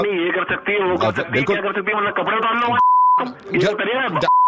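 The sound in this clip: Steady electronic phone disconnect tone after a call is hung up, a flat beep heard twice in short stretches between a man's loud talk.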